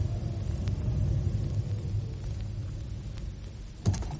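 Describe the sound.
Car with suitcases on its roof rack pulling up, its engine giving a steady low rumble throughout, with a short louder bump near the end.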